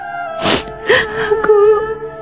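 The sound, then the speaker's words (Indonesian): Sudden crying in a drama scene: loud breathy sobs break into a few wavering, moaning wails that rise and trail off, with no words spoken. “Mengapa kau tiba-tiba menangis?”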